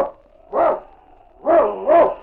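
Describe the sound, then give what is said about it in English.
A husky sled lead dog barks three times, in full-throated mid-pitched bursts: one single bark, then a quick pair after a short pause. “It's Yukon King, swiftest and strongest lead dog of the Northwest”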